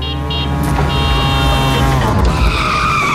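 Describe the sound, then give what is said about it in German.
A tuk-tuk drives past as a sound effect, its loud buzzing engine whining steadily. The pitch of the whine climbs near the end. “Wenn das Tuk-Tuk durch Deutschlands Biggest Beats fährt,”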